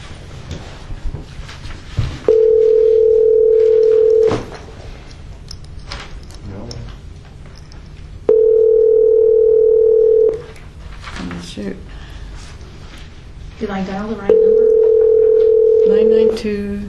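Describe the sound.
Telephone dial tone sounding in three long, steady, identical stretches, loud and clean, with people talking in the gaps between them.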